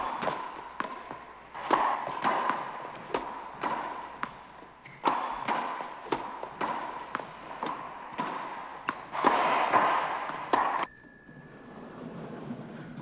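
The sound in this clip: A racquetball game in play: many sharp, hollow ball impacts and thuds in a quick, uneven rhythm, some louder smacks standing out, before the hits stop and a faint high tone lingers.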